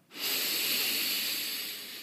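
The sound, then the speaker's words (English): One deep breath during a guided meditation, heard as a single steady, breathy hiss. It swells in quickly and holds for about two seconds before easing off slightly, with no talk. “take a deep breath”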